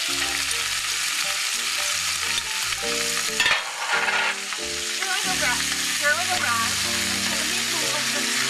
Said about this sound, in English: And then I'm going to add my meat so that it'll, as soon as it gets the color. And the onion.